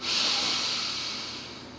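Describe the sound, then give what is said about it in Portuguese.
A person inhaling deeply during a guided relaxation breathing exercise: one long, airy hiss of indrawn breath, steady at first and slowly fading toward the end, with no voice over it. “Respire novamente. Inspire.”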